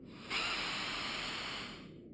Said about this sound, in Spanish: Mira, inhala.